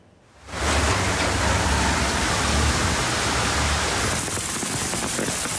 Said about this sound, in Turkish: Ankara'nın çevre ilçelerinde dolu, şehir merkezinde ise sağanak etkili oldu.